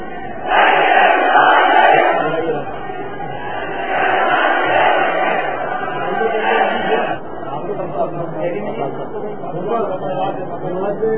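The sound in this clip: A crowd chants a religious slogan in unison at a Sunni religious gathering. Many voices rise together in loud, repeated swells, and the chant eases slightly toward the end.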